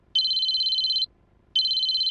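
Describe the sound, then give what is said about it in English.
A cell phone rings during a family dinner: two long, high electronic trilling tones, each just under a second, separated by a short silence and heard alone. “The Gradys were eating dinner when Grace's cell phone rang.”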